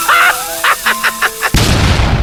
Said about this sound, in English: Oh, it's only a bomb!